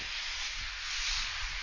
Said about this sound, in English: I'm not sure what that noise was. Did you hear that? Yeah. Did someone just drop the largest pan of all time? Oh, no, that's the smoke machine in the back.